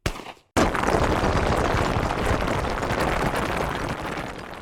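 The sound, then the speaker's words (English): A wall of logs falls and a rock slide follows in a canyon, heard as a sudden, loud, roaring crash after a brief quiet start. It settles into a dense, sustained rumble that stays heavy and eases only slightly toward the end. “Hannah's excellent aim triggers the wall of logs to fall on the first shot, but then a rock slide is triggered from above, surprising the two of them.”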